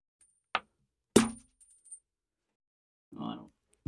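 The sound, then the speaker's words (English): A coin is flipped and lands: a short sharp flick, a pause, then a bright metallic clink on landing followed by a couple of faint little rattles as it settles, then a brief softer sound. “it's the coin toss. One surprise topic off the rip, two sides of a coin.”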